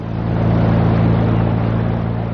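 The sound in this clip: A motorboat engine on a small fishing boat: a steady, loud, low droning hum with a strong, even pulse that holds constant throughout, with no voices.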